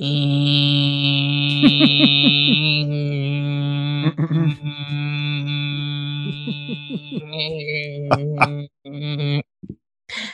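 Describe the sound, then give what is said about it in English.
A human voice imitates a gate buzzer, holding a steady, low, buzzy drone for several seconds with slight wavers, then breaking into shorter choppy buzzes toward the end. “and the buzzer goes the whole time that we see the car going into the gate, the open gate, and then the buzzer goes.”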